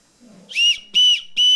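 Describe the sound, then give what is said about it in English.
A whistle is blown as a code one warning signal for spotting immigration agents or their cars. Three short, shrill, steady blasts sound in an even rhythm, loud and alone. “it describes how people should whistle. Code 1, she says, is for when you see an ICE agent or one of their cars nearby. You want to do this blow.”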